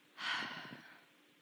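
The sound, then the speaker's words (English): One soft, airy breath, rising quickly and then trailing off over less than a second, quiet and alone. “Take an inhale. Take an exhale.”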